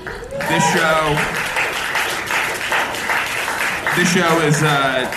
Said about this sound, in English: This is our first live show ever. The clapping is great.